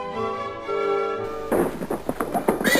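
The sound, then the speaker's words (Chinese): A horse-drawn carriage pulls up at the front door of a house, its hooves clopping in quick, irregular strikes that begin about halfway through, after a sustained musical passage. “这时候，一辆漂亮的马车到了艾琳家的门前，马车刚停下”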